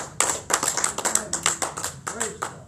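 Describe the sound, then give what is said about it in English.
A church audience claps hands in praise, a quick run of many sharp, fairly loud claps in a steady rhythm, with a voice briefly heard among them. “Somebody give Him a hand clap of praise.”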